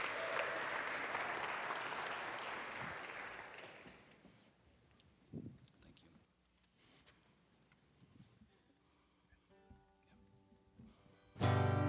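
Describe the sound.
An audience applauds to welcome a singer about to perform a psalm. Dense, loud clapping lasts about four seconds, then thins and fades to scattered quiet sounds.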